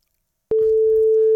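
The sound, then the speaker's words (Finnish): A telephone ringback tone sounds while a call is being placed: one steady, loud, mid-pitched tone that starts abruptly after a short silence and holds unbroken to the end. “Mä annan 3 ringiä sitten.”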